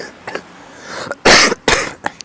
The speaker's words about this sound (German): Ich habe ein bisschen Husten.